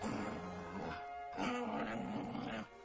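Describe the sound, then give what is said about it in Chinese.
A big dog snorts contemptuously through its nose in two low, grumbling bursts, separated by a short pause. “可是大狗 Big Dog 看见他，只是用鼻子轻蔑地哼哼了两声，”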